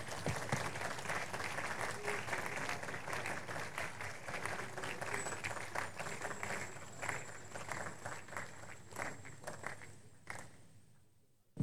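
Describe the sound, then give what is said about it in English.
A church audience applauds a testimony with dense, steady clapping that holds at a loud level for about ten seconds and then fades quickly to near silence. “Please rise on your feet. Put your hands together with loud voices. Let's magnify God for this testimony.”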